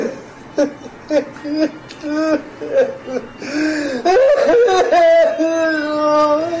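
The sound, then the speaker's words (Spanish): A man crying and whimpering loudly, with wavering sobs and strained, wailing cries that grow more intense in the second half. “Caballero, Caballero, ya, ya, mire, pare de llorar, pare de llorar.”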